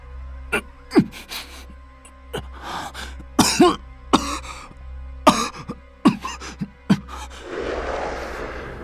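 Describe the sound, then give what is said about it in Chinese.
A man coughs violently in many harsh, irregular bursts, some coming in quick clusters, over a low steady hum. The coughing gives way at the end to rough, noisy breathing. “男人身体一软，跪倒在地上剧烈咳嗽，连鼻涕眼泪都呛了出来。”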